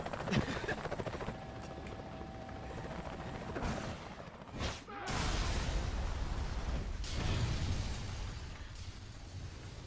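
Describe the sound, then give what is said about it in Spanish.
Video game explosions roar through a steady, dense wash of noise, with a sharp burst near the middle giving way to a heavier low rumble that lasts to the end. “Todavía flipo con las explosiones de este juego, dice Asti”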